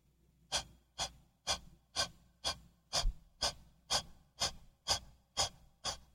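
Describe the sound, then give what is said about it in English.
A singing breath exercise with the belly expanded and good posture: twelve short, evenly spaced breathy bursts in a steady rhythm, each a brief airy hiss. They are fairly faint, with no talk. “take a deep breath, expanding your belly all the way out, and it should sound like this.”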